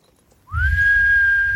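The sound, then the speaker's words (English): A person whistles a single high, clear tone that slides quickly upward and then holds steady and strong for about a second. A low rumble runs underneath. “I can whistle like a little bit, but not very good.”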